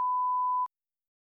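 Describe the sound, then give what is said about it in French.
A beeper gives a single steady, pure high-pitched beep lasting about two-thirds of a second, cutting off abruptly into silence. “Comme le son d'un beeper, c'est un son entêtant.”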